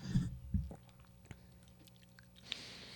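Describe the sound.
Quiet chewing of Sour Patch Kids candy, with soft moist mouth sounds, a couple of slightly louder squishy bites early on and a few faint clicks, and no talk.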